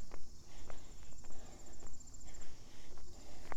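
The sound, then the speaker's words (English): Footsteps walking up a hill fall in a steady, regular rhythm of soft thuds, roughly one every half second or so. A faint, constant high whine runs beneath them. “So, walking up the hill here. I'll get to my start.”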